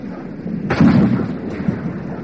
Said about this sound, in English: Oh, we shoot! Put one over his head,